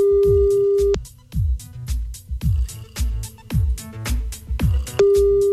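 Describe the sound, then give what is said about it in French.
A telephone call rings out as a steady, unbroken ringing tone, with a stretch of rhythmic, bass-heavy music beats in between and the tone returning at the end. “C'est Cédric qu'on appelle tout de suite.”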